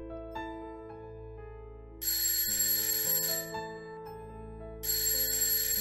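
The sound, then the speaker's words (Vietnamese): A mobile phone alarm rings early in the morning with a steady electronic ringtone melody of sustained tones, and bright high notes burst in twice over the repeating tune. “Tiếng chuông báo thức của thằng Tài chất thật. Tôi với tay tắt điện thoại của nó.”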